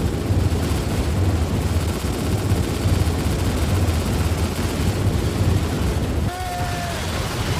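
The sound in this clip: Rapid gunfire in a shooting video game: a dense, continuous barrage of loud shots for about six seconds, easing off near the end.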